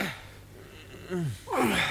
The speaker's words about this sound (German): Das schwere Atmen dieser Männer entspringt keinerlei jugendgefährdenden Motiven. Im Gegenteil, hier wird hart gearbeitet.